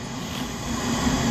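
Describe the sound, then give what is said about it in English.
UPS cargo airplanes flying near an airport give a steady, broad engine drone that swells slightly over the brief moment. “And the noise you're hearing is from our company, the UPS airplanes.”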